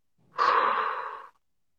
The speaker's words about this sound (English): So the first thing I do, I exhale all of the air out of my lungs.